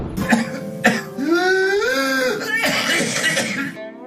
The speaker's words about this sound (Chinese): 这个咳嗽声音啊，又非常有特点，他在咳嗽结束以后呢，出现了一个吸气样的吼的声音，